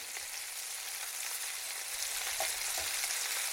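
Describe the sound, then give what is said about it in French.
Meat searing in a pan over high heat: a steady, dense sizzling hiss that continues without break and with no voices. “Faut bien saisir la viande.”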